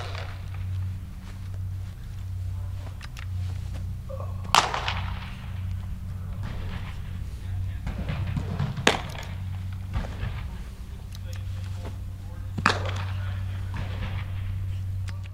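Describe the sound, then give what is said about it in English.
Sharp pops of a baseball smacking into a glove as two pitchers play catch indoors, a few widely spaced, crisp cracks standing out over a steady low hum. “that was the sound of two of his pitchers playing catch indoors.”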